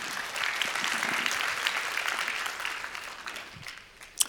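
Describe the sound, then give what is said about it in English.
Audience applause answers a speaker's point, a dense patter of clapping that gradually dies away toward the end, closing on a single sharp clap. “Y'all make some noise for that good news.”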